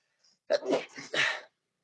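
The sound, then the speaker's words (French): A single sneeze, preceded by a faint catch of breath, breaks out as a loud, breathy burst lasting about a second, with no talking around it. “Je vais éternuer. Seconde.”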